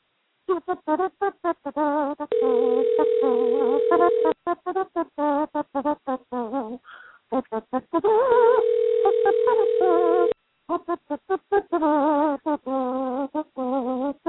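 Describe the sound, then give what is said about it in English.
Two long, steady telephone tones sound while a call is placed, each lasting about two seconds. Rhythmic music with a strong beat plays throughout and is briefly interrupted between them. “Let's see if this works. Oh, we need some dialing music, please.”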